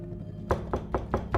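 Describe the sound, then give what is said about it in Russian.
Knocking on a door: five sharp knocks in a quick, even rhythm, standing alone over a faint low hum. “Тоби идет по коридору с шариком. Стучится в дверь Лин.”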